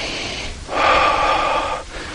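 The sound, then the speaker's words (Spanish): A deep breath drawn in: one long, smooth inhalation of about a second, louder than the fainter breath noise just before and after it. “si hay dolor de cabeza o algo así, empezamos a respirar”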